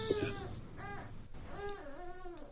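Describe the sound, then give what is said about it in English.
A little baby whines in a few wavering, whimpering cries with a rising and falling pitch, fairly faint against a low background. “Got a little baby whining here.”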